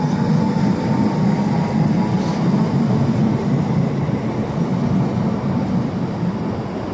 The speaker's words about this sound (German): Jetzt fährt die 11E. Nach Waren los.